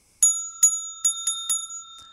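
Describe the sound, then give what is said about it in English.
Bright, high-pitched bell rung in quick strikes, five clear dings spaced unevenly followed by a faint sixth, each ring leaving a short sustained shimmer; no voices. “I ring the bell for you.”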